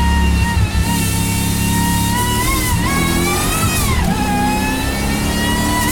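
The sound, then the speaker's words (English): A supercharged S-Type car climbs the hill at Harewood Hillclimb, its supercharger whining high over a loud engine note. The whine dips and rises with the revs through the corners, and no voices are heard. “Listen to that supercharger whining.”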